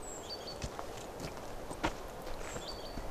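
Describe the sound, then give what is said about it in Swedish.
Faint footsteps of two people, a woman and a man with a walking cane, strolling at an unhurried pace. The soft steps come in an irregular patter, with a few light bird chirps above. “Där promenerar de.”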